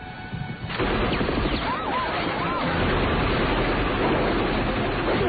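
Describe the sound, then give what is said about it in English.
Machine-gun fire fills a film action sequence: after a brief quiet opening, a dense, continuous roar of rapid shots holds steady and loud for several seconds. “This is a fun sequence with the machine gun going.”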